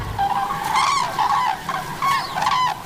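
Common cranes call while feeding in a harvested field, a pair joined by two young birds: a loud series of harsh, trumpeting honks that overlap and repeat throughout.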